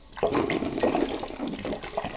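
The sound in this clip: Sparkling water is poured into a bowl for a homemade facial, a loud, splashy gush of liquid with uneven surging bursts running throughout.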